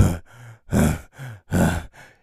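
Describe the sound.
A voice imitating panting: six quick breathy gasps in a steady rhythm, with louder, harsher exhales alternating with softer, voiced inhales and no words.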